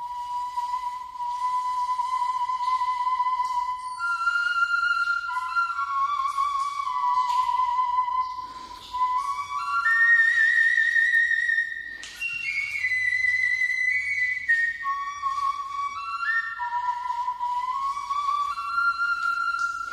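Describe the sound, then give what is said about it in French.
A replica of a prehistoric five-hole flute, 22 cm long and under 1 cm across, plays a breathy, high, whistle-like melody. Sustained notes slide from pitch to pitch in a slow line, broken by a few short pauses. “la flûte a 22 cm de long et moins de 1 cm de diamètre. Elle a 5 trous. Une réplique de cette flûte a été fabriquée et les sonorités qu'elle produit sont envoûtantes. Je vous les avais déjà fait entendre. Écoutez.”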